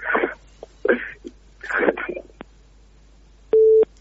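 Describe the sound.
Telephone busy tone after a dropped call: a single short, steady beep comes at the end, after a few moments of speech.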